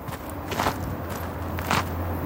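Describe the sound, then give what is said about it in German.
A few soft footsteps walk into a swampy field, the Japanese beetle's habitat near Pian San Giacomo in the Misox valley, with a steady low hum running underneath. “Wir laufen ins Sumpfgebiet.”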